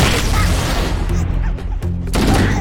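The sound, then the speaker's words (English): Grenade explosion in a video game, a loud, heavy rumbling blast with dense low-end roar and crackling texture, dipping briefly before swelling again. “Okay. Well, viewers. Watch out, grenade.”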